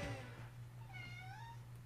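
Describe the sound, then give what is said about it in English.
Faint meowing from a cat at an open window: a couple of soft, thin calls, the later one slightly rising, over a steady low hum. “Is that cat in your house now? No, I think the window's open. I think cat's at the window.”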